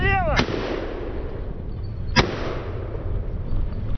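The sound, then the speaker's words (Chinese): Gunfire at a drone air-defense training range, where crews shoot from moving vehicles at low-altitude targets: two sharp, loud shots crack about two seconds apart over a continuous low rumble. “无人机训练营地专门设置了机动射击和固定射击的场所，我们现在是位于机动射击的跑道上。训练的科目即机动车行进中对低空目标的射击。”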